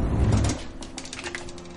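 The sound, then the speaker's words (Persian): A drawer slides open with a brief low rumbling scrape, followed by a few light clicks and small rattles. “چیکار میکنی؟ برای چی کشو رو باز میکنی؟”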